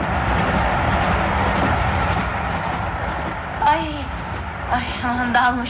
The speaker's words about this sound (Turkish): Ya bir yük katarı geçti yanımızdan.